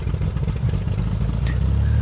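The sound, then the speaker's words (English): An aircraft engine starting up produces a steady, low mechanical drone with a throbbing, revving character that holds at an even loudness throughout, with no voices. “The thing is just gonna shut down now when I turn the engines on. Or the engine.”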